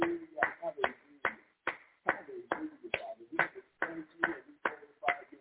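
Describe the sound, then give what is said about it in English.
Hand clapping in praise at an audience's worship, a steady run of many sharp claps at an even pace, with a voice talking over them. “Let us give the Most High a hand clap of praise.”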